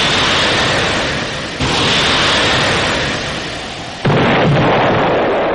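Artillery fire booms through a radio drama battle scene involving a missile battalion engaging targets: a dense, continuous roar of heavy blasts with two sudden louder bursts partway through, no voices.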